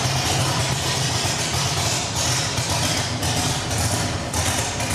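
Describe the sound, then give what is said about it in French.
A car's lifting system raises the vehicle during a demonstration with a loud, continuous mechanical whir over a low rumble. The sound holds steady without pauses. “Tu peux me faire une démo de levée de la voiture pour voir?”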